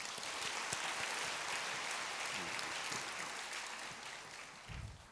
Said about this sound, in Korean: 우리 다시 한번 따뜻한 박수로